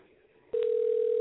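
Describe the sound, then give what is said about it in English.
A telephone dial tone sounds as a call is being placed, starting abruptly after half a second of faint low background noise, then holding a loud, steady single pitch to the end. “Okay, it's dialing, I think.”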